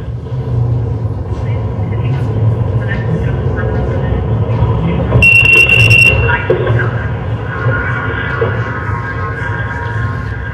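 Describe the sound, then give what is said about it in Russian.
A Mobileye forward collision warning beep sounds inside a car: one high, buzzy tone lasting about a second, standing out over steady engine and road rumble. “смотрите, она запищит до того, как у машины зажгутся тормозные лампочки. Это как раз предупреждение столкновения.”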